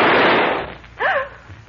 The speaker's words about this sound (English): What in heaven's name? Who fired that shot?